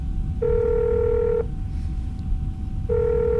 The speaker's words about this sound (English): Let's call Dr. Odd on his Oddphone 4S.